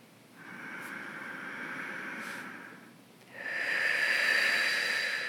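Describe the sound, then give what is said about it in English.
Forceful breaths out used to move energy during a children's visualization: two long, airy, hissing exhales with no talk, the second louder than the first. “I'm using my breath to move the energy.”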